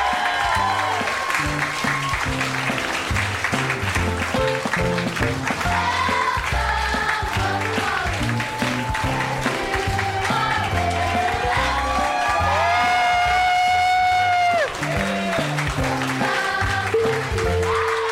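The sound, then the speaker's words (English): An audience breaks into sustained applause and cheering at a live show. Dense, steady clapping mixed with shouts and whoops fills the whole stretch without a break. “Everybody give it up for Dan Harmon and Emil Amos. Let them hear it.”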